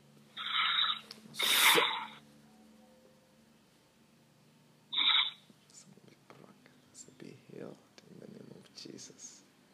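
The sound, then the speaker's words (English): Heavy breathing, done in and out on request, comes as a few loud, rough breaths near the start, then quieter rustling and soft breath noise. “Breathe in and out 5 times heavily again for the last time.”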